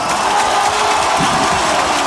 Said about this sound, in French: Annonce du speaker, standing ovation et près de 6000 spectateurs pour un entraînement tout de même.